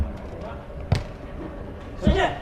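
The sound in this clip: A volleyball serve: the ball is struck with a dull, hollow thud, then a second, heavier thump follows about a second later, over a steady background murmur.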